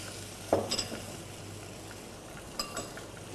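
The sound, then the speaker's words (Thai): Red curry paste stir-frying in a pan with coconut cream gives a faint, steady sizzle, broken by a few light clinks of a utensil against the pan. “ผัดให้มีกลิ่นหอม”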